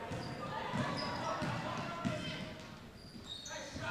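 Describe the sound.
A basketball is dribbled during a recreational league game. A few evenly spaced bounces thump under continuous play-by-play commentary.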